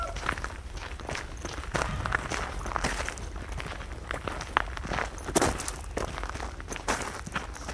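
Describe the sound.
Footsteps walk along fields, many steady steps at an unhurried pace, crunching and scuffing continuously throughout.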